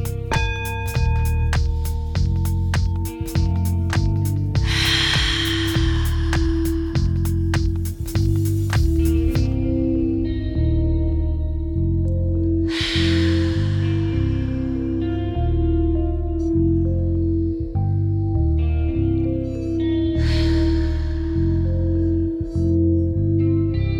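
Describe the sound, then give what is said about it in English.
Slow deep breaths, drawn in through the nose and let out through the mouth: a few long, airy breath sounds rising and fading over a steady, droning ambient music bed. “let's go for our five slow, deep breaths. I want you to inhale through the nose and exhale through the mouth.”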